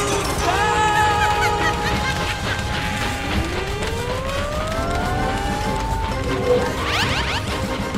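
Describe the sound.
A cartoonish time machine crash landing effect: a loud, sustained clattering din under sliding whistle-like tones, with a long rising glide through the middle and quick rising sweeps near the end.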